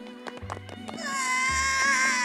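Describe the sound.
An infant cries loudly in a cartoon village scene. The sustained, high, harmonic wail starts about a second in and continues to the end over other lower sounds.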